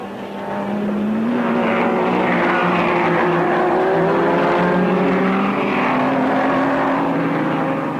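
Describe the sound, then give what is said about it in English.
Ferrari racing cars chase the leader in a championship motor race, with a loud, sustained engine roar whose harmonic tones shift and waver throughout and no voices. “The two Ferraris of Hill and Von Trips are trying to make ground.”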